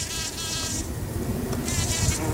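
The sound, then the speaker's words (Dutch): A bumblebee buzzing in spring, a continuous droning hum with a fluttering, wavering tone, steady in loudness throughout with stretches where the brighter upper buzz grows stronger. “Klinkt als de lente als je dit hoort. Het is het gezoem van een hommel.”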